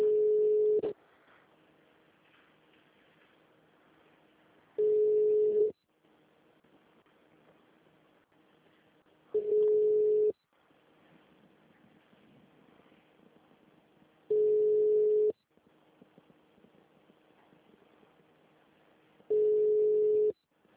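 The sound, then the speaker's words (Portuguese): Telephone tones from a call to Santander bank's phone menu: five steady, mid-pitched beeps, each about a second long and spaced roughly five seconds apart, with faint line hiss in the gaps. “Vou agora para uma mesmo para agência do você. Santander. Disque 0 e o ramal desejado.”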